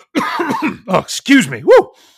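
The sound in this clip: Coughing and throat clearing from a man: a few rough, breathy bursts, then louder voiced, tonal throat noises that rise and fall in pitch.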